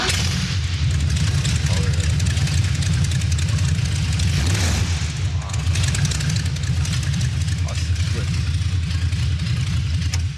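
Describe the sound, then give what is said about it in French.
A V8 car engine runs with a loud, deep, continuous rumble that holds steady, with a brief sharper surge near the middle. “Ouais voilà, puis le son du V8 quoi. Bah justement on se l'écoute.”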